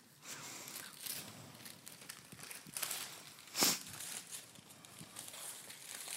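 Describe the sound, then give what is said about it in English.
Wrapping paper is ripped open on a present, unwrapped as on Christmas Day. A few rough tearing and crinkling bursts stand out, the loudest near the middle, over a quiet rustle. “Go on, just rip it open. You got it. Do it as you would on Christmas Day.”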